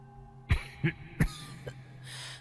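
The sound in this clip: Four dry coughs come in quick succession, the last one weaker, with a faint steady hiss between them and afterward.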